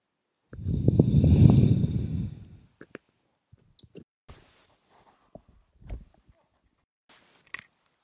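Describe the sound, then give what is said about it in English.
A strong, deep breath in, drawn as one long, loud, rough inhalation lasting about two seconds, followed by a few faint clicks and small breathy noises in near silence. “And then a strong deep breath in again. Then just one strong breath in again.”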